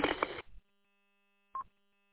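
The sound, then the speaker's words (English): A short electronic beep on a radio repeater, sounding alone after a burst of band-limited radio noise cuts off; a single brief, fairly faint tone. “Are you on the KP8LTS repeater as well, or is that beep beep going to other units, machines?”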